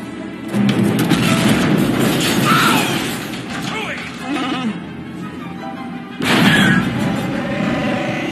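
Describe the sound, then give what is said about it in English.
An asteroid strikes a spaceship in a Star Wars scene: a heavy jolting impact with broad rumbling noise near the start and another sudden hit around six seconds in, with voices and growling mixed into the din. “There was no laser blast. Something hit us. Han, get up here. Come on, Chewie. Asteroids.”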